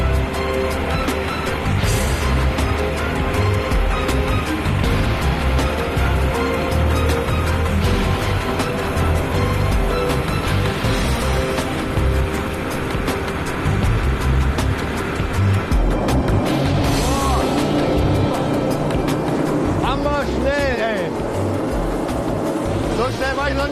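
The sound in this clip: A police boat speeding over water, its engine roaring steadily amid rushing, splashing water, loud and continuous throughout, with voices talking over it.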